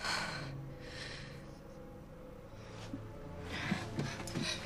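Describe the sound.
A frightened woman breathing heavily, a few ragged, rushing breaths rising and falling at a moderate level, with no talk.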